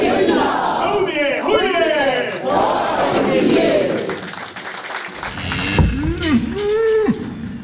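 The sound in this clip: Cattle moo on a farm holding 1,000 bulls, with several loud, drawn-out lowing calls that rise and fall in pitch, some overlapping, over continuous background noise.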